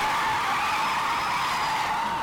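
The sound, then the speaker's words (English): A black sedan's tires squeal as it spins a 360-degree donut on a street, producing a loud, continuous hissing screech that holds steady throughout with no voices. “They laid a perfect 360-degree donut in the middle of Cherry Street.”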